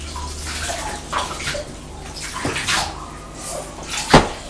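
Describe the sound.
Bathwater splashing while a child's hair is rinsed in the tub, a steady wash of gentle, irregular sloshing with one sharper splash near the end.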